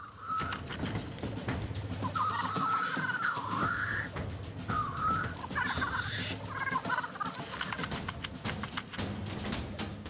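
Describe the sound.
Roosters crow and cluck during a fight over territory, with many overlapping squawks and crowing calls over a steady, fairly quiet noisy background.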